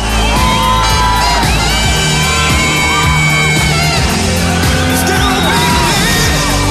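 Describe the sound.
A teenage crowd at a concert with a topless singer yells, whoops and cheers loudly and without a break, shrill screams cutting through a dense roar.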